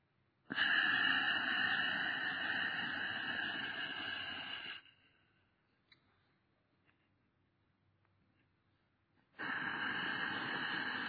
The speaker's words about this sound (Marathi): हम म्हणत श्वास सोडा.